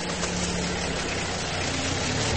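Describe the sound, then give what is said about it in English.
A car engine as the car drives away, heard as a steady, low, rumbling drone with a constant hum underneath. It stays even in loudness throughout the short stretch, with no talk. “As the car drove away from Florestrasse, the rain stopped”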